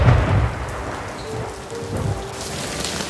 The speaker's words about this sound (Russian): В ту же ночь в городе выпал град.